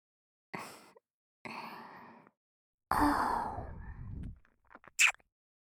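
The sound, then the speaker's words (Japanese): A short, bright lip-smack kiss at the end, preceded by a few soft, breathy blowing sounds with gaps between them. No talking. “このまま起きないのでしたら、ふぅだけじゃなくて、チュッってしちゃいますよ。”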